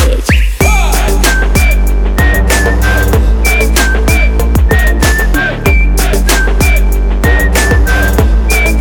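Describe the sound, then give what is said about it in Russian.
High, clear whistling repeats a short melodic phrase many times over loud music with a steady, punchy beat. “Хватит свистеть.”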